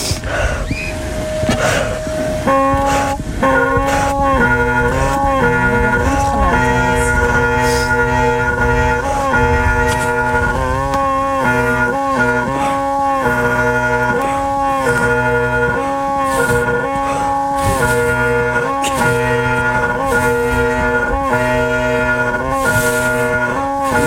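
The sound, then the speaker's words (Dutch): Bagpipes played by a woman lying down in Zeeland: a loud, continuous reedy drone with a shifting chanter melody above it. The playing runs steadily without pause for the whole stretch. “Maar de liggende doedelzakspeelster van Zeeland. Die ligt hier. Het lijkt eigenlijk wel een beetje of je een luchtbed op ligt te pompen.”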